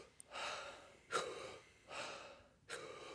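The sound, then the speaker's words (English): Mouth breathing during breathwork, with inhales and exhales that fill the belly and chest together. Four airy, breathy bursts come in a steady rhythm, separated by short pauses, with no talking. “Wim Hof is one part inhale, one part exhale. So it's like belly and chest at the same time.”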